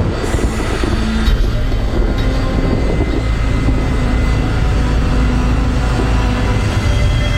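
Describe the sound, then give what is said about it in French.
Steady engine roar of an airliner, flight West 708, taking off from Panama at 1 a.m. bound for Fort-de-France. It is a loud, dense rumble that holds constant throughout, with no voices. “West 708, you're cleared for takeoff. Have a safe flight. West 708, lining up and taking off.”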